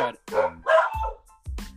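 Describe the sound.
A dog barks in a home studio with bare floors: several short, loud, harmonic barks in quick succession, with a brief pause before the last one.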